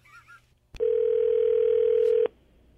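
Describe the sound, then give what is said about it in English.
Ringback tone of an outgoing phone call: a single loud, steady mid-pitched tone of about a second and a half. It begins with a sharp click and stops abruptly. “let's give your husband the idiot a call. Hold on.”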